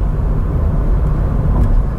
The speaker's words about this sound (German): Lahm bin ich dann trotzdem nicht unterwegs. Und wenn ich das Gas ganz durchdrücke, geht der Eco-Modus sowieso in Pause.